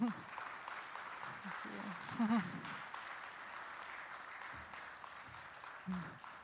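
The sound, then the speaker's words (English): An audience applauds to welcome a speaker to the stage at a Ventura event, a steady, fairly quiet patter of clapping with voices speaking over it. “So let's put our hands together with some Ventura love and welcome Annie to the stage.”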